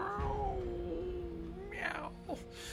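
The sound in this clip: A person's voice imitates a cat, giving a wavering, drawn-out yowling cry that ends in a short breathy burst. It is fairly faint and alone, with no other talk.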